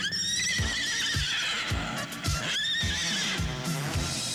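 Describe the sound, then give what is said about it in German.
A horse standing in a hallway whinnies repeatedly, with shrill, wavering neighs that rise and fall and sound loud and clear, alongside low thumping knocks like hooves. “Da steht ein Pferd auf dem Flur, ein echtes Pferd auf dem Flur.”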